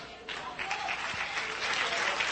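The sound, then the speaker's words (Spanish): Applause from a church audience during a worship service: dense, steady clapping that swells slightly after the opening moment and then holds at an even level throughout. “Un fuerte aplauso, Señor.”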